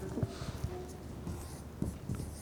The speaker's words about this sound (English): Let me write that.